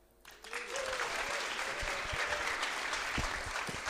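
Sustained audience applause welcoming a guest, a dense wash of clapping that swells in within the first half second and holds at a steady, loud level to the end.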